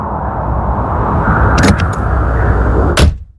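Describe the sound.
Low, steady rumble of a car engine, full and continuous, with a few sharp clicking transients near the end before the sound quickly fades out.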